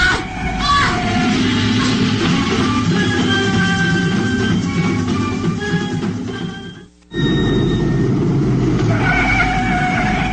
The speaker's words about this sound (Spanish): Sí, me vi obligado a frenar bruscamente. Pisé a fondo el freno y el lujoso Rolls Royce patinó peligrosamente por la carretera envuelta en la niebla.